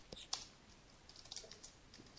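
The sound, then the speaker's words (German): Faint typing on a computer keyboard: light, irregular clicks of keys pressed in quick runs with short pauses between them. “Ja, ich habe es gerade aufgetippt.”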